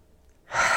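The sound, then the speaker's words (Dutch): One deep breath drawn in during a guided relaxation exercise. A brief quiet pause gives way to a loud, airy inhale that swells and holds to the end. “Rek je lekker uit. Adem 3 keer diep in.”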